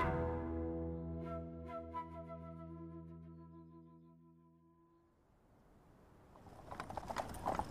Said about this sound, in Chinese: 一辆普通马车从淮城出发，经过半个月的长途跋涉，不急不缓地停在了军县城外。